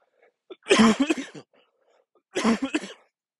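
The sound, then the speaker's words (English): Two separate coughing fits, each a rough, throaty burst of several quick hacks, with a second of quiet between them and no talk. “I apologize for the coughs and the distractions.”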